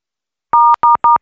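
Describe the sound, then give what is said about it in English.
Telephone keypad tones sound as four loud, short electronic beeps, each a steady pure dual tone, pressed in quick succession with the last one cut off, and no voices. “the phone's so sensitive as well. Like, it doesn't always hear when you press the right button.”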